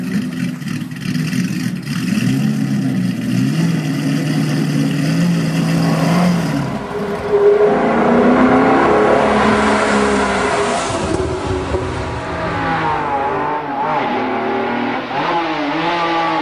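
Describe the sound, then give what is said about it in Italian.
Roaring engines of a 1961 Aston Martin DB4 GT and a Maserati 5000 GT: a loud, continuous roar with revving and a clear shift in tone partway through, heard alone. “I ruggiti di motore che abbiamo ascoltato appartengono a vetture che hanno segnato buona parte dell'automobilismo italiano dei primi anni 60. L'Aston Martin DB4 GT del 1961, la Maserati 5000 GT”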